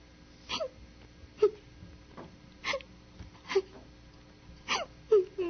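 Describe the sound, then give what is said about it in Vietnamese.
A person sobs in repeated wailing, hiccuping bursts with gasps and quiet pauses between them, each cry short and breaking off abruptly. “Ủa, tiếng ai khóc đó?”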